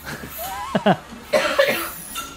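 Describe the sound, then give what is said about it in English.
Wet, phlegmy coughing: a few harsh coughs come in two short bursts, separated by brief pauses and moderately loud. “See what it does to me? It makes you bring up phlegm.”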